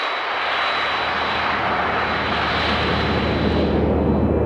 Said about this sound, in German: Und die Luft macht 2 verschiedene Geräusche. Das Pfeifen. Hey! Da! Das entsteht beim Einströmen in die Düse.